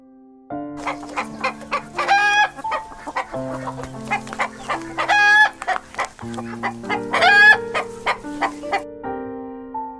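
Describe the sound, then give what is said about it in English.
Chickens cluck in many quick, choppy bursts that fill the whole stretch, broken by a couple of louder, higher, drawn-out calls near the start and again later. “Chicken.”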